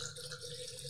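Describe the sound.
Wine is poured through a Venturi aerator, making a continuous hissing, gurgling rush of liquid with air drawn in. The sound holds at an even level for its whole short length.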